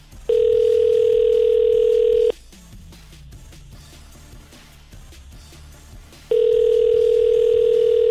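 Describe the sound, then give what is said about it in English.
Ringback tone of an outgoing telephone call: a steady, loud, mid-pitched tone lasting about two seconds, then roughly four seconds of quiet, and a second identical tone that is still sounding at the end. “let's give one random person a call right now”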